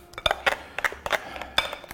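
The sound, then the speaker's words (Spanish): A utensil stirs cream with a crust on top in a serving dish, producing many quick, irregular clinks and scrapes against the dish, bright and fairly faint. “Vamos a remover bien para que la costrita de arriba se mezcle bien con el resto de la crema.”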